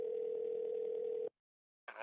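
A steady telephone dial tone sounds as someone calls out on the phone. The low, even hum holds for about a second before cutting off abruptly, followed by silence and a brief noise at the end.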